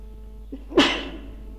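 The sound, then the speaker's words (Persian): A single sneeze: a faint intake of breath, then one sharp, loud burst that trails off quickly, with no talk around it. “هرچه جنگیدیم که عطسه نیاد نشد دیگه”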